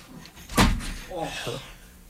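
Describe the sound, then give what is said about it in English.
A single loud thud of a knock on a door cuts in sharply, followed by a person talking. “Hold on. Someone's knocking at my door.”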